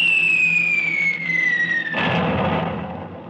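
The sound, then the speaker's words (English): A bomb explosion in a radio drama: a high whistle slides steadily downward in pitch for about two seconds, then a loud, broad rumbling blast bursts out and slowly fades. “Was that what they call a bomb? That was what they call war.”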